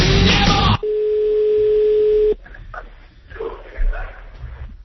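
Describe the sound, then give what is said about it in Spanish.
A telephone call tone from an international call being placed to Scotland holds one steady, even pitch for about a second and a half after a loud burst of noise, followed by quieter talk. “Llamada a Escocia. Está el líder en Escocia.”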